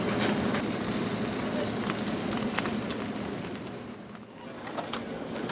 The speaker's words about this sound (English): You start with oven-roasted turkey, put pepperoni on top, put it on the grill, push the grill down on it, get it nice and crispy, and then Munster cheese goes on top, melted on the top.